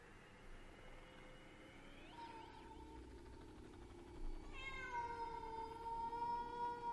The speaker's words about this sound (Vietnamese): Sau đó là tiếng mèo kêu vang vọng trong không gian.